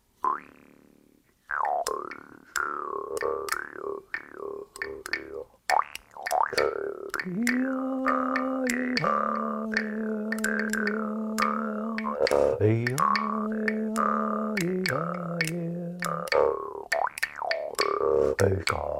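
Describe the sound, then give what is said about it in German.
A bass jaw harp from the Philippines, played with the lips, twangs in rapid rhythmic plucks over a buzzing drone. The drone's pitch shifts between a few sustained notes through a long, steady passage. “Ich spiele also mit den Lippen diese schöne Bassmaultrommel.”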